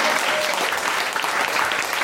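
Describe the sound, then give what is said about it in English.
A studio audience at a comedy quiz show gives dense, steady applause, a loud, even wash of many hands clapping throughout. “A big round of applause for our teams on Kitchen Sink Drama,”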